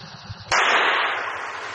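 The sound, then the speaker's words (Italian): A single pistol gunshot: one sudden, loud bang followed by a sustained noisy tail that slowly fades. “La pistola m'hai puntata, eh? Ed un colpo m'hai sparato. Ah sì? Spara.”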